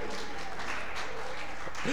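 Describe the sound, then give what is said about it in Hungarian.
Two teams applauding each other after a tied contest, a soft, steady patter of clapping, with a brief voice heard at the very end. “Igen, tapsoljátok meg egymást!”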